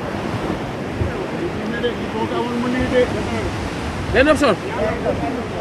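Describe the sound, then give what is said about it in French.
Sea waves wash steadily on the shore of a fishing town, a continuous broad rushing roar mixed with wind noise, while people briefly talk over it. “Et on l'entend, le bruit de la mer, on est très présent.”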